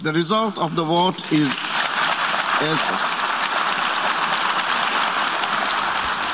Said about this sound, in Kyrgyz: Добуш берүүнүн жыйынтыгы жарыяланганда залдагы дипломаттар бир топко чейин кол чаап турушту.